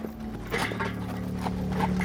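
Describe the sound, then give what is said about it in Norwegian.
A fancy horse-drawn carriage pulled by four white horses rattles through the streets of Copenhagen. Wheels and harness make a steady, dense rumble, with scattered hoof clops throughout. “Det fær å rakle en karet gjennom København.”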